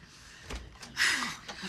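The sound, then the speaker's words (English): A door is opened, giving a few soft knocks and clunks followed by a louder, brighter scrape near the middle, with faint voices underneath. “Kim opens the door.”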